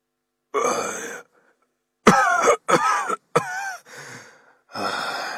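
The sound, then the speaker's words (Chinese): An old man coughs several times while pale and out of breath: five rough, raspy bursts with strained voicing, separated by short pauses. “老夫脸色煞白，气喘吁吁，咳嗽了几声”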